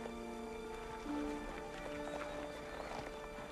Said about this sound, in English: Katsumoto rides to the front of the line. Higen runs off, and Katsumoto, followed by Ujio, rein in beside Algren